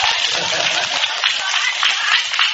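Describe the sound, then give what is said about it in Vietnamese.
Applause from a crowd at a Buddhist chanting gathering: dense, steady clapping that holds an even level from start to finish. “Vỗ tay, vỗ tay.”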